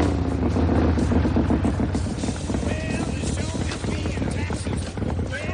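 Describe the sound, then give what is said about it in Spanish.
A motorcycle engine rumbles steadily, arriving at a house along California's Gold Coast. The low, pulsing drone continues throughout with other sounds mixed over it. “Tim llega montado en moto a una bonita casa”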